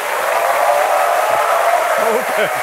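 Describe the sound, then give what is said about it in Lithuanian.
An audience applauds to welcome the new commander of the Lithuanian armed forces as he is called up, with steady dense clapping throughout and a voice heard toward the end. “Čia norėčiau pakviesti naująjį Lietuvos kariuomenės vadą, generolą leitenantą Valdemarą Rupšį. Pasitikime plojimais.”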